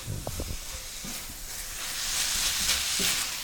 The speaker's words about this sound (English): I'm gonna add my dressing, that mustard dressing. I'm gonna toss that around.